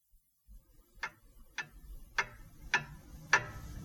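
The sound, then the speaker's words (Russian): Clocks ticking at home: a quiet, steady series of about five crisp ticks at an even, unhurried rhythm over a soft, low background. “в городе у нас дома все тикают да тикают часы, отмеривают время”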